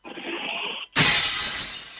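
A clay pitcher breaks with a sudden loud crash, followed by a sustained bright crackle of scattering fragments.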